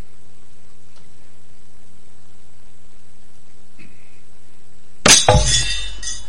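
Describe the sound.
Glass breaks suddenly after near silence: one sharp crash followed by a short scatter of bright tinkling shards that fades quickly.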